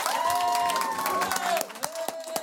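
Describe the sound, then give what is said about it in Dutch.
Audience applause greeting guests introduced at a live event about fighting discrimination: a dense, steady patter of many hands clapping that thins slightly toward the end. “En dan heb ik het over, mag ik een groot applaus, Jerry Afrië”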